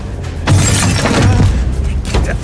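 Window glass smashes: a loud, dense crash of shattering with bursts of breaking noise that fills the whole moment.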